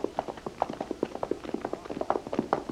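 Horses are ridden along a road, producing many quick, irregular clip-clopping hoofbeats in a steady, busy stream.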